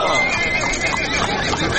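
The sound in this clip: A horse whinnies with a rough, wavering neigh that fills the whole clip at a steady, loud level over dense background noise.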